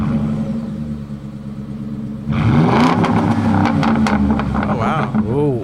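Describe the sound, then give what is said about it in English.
A 2011–2020 Ford F-150 with the 5-liter Coyote V8 idles with a low rumble, then breaks into loud, repeated revs whose pitch climbs and falls several times. “2011 to 2020 Ford F-150 5-liter Coyote.”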